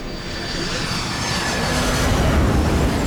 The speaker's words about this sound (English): The wheels touch down on the tarmac. The aircraft rolls to a stop,